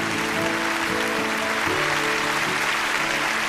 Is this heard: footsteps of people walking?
no